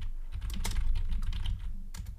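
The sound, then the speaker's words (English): Someone types on a computer keyboard in a rapid, uneven patter of many soft key clicks over a steady low hum. “I can hear you typing away.”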